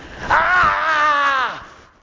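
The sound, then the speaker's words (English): A voice imitates a ghost yelling: one loud, drawn-out, wavering wail lasting over a second, then tailing off. “The Spirit yells. Just like that.”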